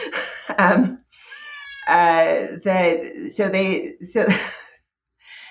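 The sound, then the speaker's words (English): A domestic cat meows a few times in loud, drawn-out, tonal calls separated by short pauses. “Sorry, that's my cat.”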